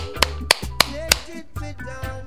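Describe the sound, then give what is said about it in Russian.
Hands clapping along to a children's action song: four sharp, evenly spaced claps over music, followed by a couple of softer claps. “Хлопай в ладоши, вот так.”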